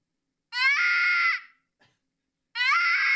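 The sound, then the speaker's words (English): A rabbit screams twice, each a shrill, harmonic cry. The first lasts about a second and is followed by a pause, then the second starts and runs to the end. No one talks over it. “It's a rabbit.”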